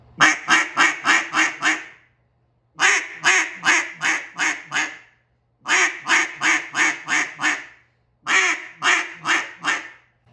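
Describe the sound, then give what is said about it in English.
Cut-down duck call with a reed, blown to imitate a duck: four loud runs of six or seven rapid, raspy quacks each, separated by short pauses, with no talking. “now you hear that's duck. That is pure duck right there. I'm surprised there's not feathers coming out the end.”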